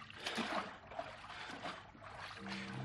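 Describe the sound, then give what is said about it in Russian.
Paddling of a wooden dugout boat as a man rows quickly with a small paddle: soft, continuous water swishing and trickling with faint strokes, fairly quiet throughout. “По воде плывет лодка-долбленка. Мужик в тулупе быстро гребет маленьким веслом.”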